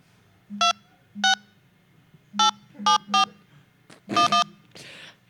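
Telephone keypad tones dial a mobile number: seven short, bright beeps in an uneven rhythm, some spaced apart and others in quick pairs, each with a low hum beneath it. A brief rustle follows the last tones.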